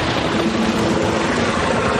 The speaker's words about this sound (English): The longer this chopper circles us, the more vulnerable we become.